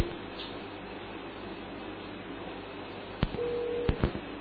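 A phone call line cutting out: a steady, narrow hiss of an open telephone line, then a few sharp clicks and a short steady tone near the end.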